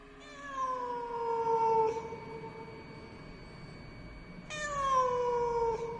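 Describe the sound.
Cat meowing as it is chased out through a window at night: two long, drawn-out meows separated by a quiet pause, each loud and whining with a slightly falling pitch.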